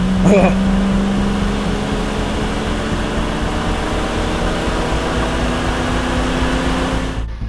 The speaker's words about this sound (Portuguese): você ouve o som inconfundível da caranga saindo do local onde vocês estão